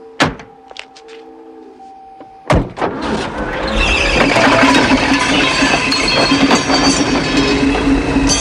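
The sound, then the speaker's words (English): A thud and then a sharp slam as a door of a bullet-riddled car shuts, followed by the car lurching away along a quayside with a loud, sustained roar of engine and road noise. “Rocker bundles him into the bullet-riddled car.”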